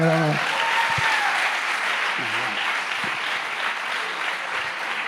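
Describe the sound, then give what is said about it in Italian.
Applause from an audience at a talk on marriage, a dense steady clapping that stays loud through the whole stretch, with a brief voice at the start. “Questo merita un applauso”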